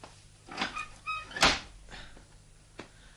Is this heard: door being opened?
yes